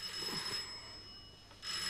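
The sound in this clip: A telephone rings in a home, faint and thin against steady background hiss, with the ringing seeming to come in a couple of bursts.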